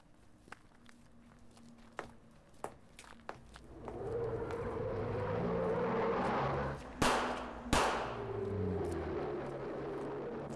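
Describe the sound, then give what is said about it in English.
Two sharp gunshots ring out as a woman is shot coming out of a flat. Footsteps tap lightly at first, then a steady background rumble builds before the bangs. “a woman was just shot coming out of Magnus's”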